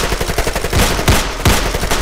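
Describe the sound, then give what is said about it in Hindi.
Gunfire from a gun: a rapid burst of loud, sharp cracking shots over dense, noisy background sound. “Rahul ने अपनी gun निकालकर अनूप पर गोली चलाई और वो मिस हो गई।”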